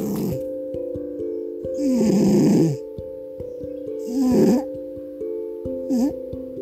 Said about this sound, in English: And this is the sound of her snoring.